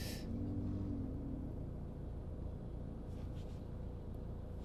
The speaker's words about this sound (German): der Mensch vom Pizzalieferant ist einfach mal kurz auf die Gegenspur, um hier auf den Parkplatz zu fahren.